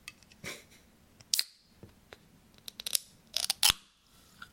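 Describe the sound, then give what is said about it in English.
A drink being opened: a crisp crack with a short airy hiss, then a cluster of sharp clicks and snaps, with quiet gaps between the bursts and no talking. “All right, I'm going to open a drink.”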